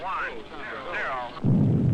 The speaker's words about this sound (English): I believe that was the blast off.